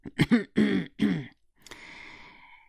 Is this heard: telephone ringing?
no